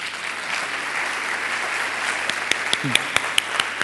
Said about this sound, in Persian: افسردگی آفرین برایش دست بزنید